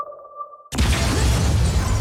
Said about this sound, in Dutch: Explosie in het flatgebouw waarbij een vrouwelijke rechercheur is omgekomen.